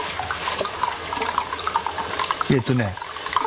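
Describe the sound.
Hot spring water pours straight from the source into a foot bath, the slightly lukewarm, silky water making a continuous, steady splashing stream while people talk over it.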